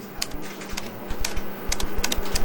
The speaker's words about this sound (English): Okay, so just type the job website address here.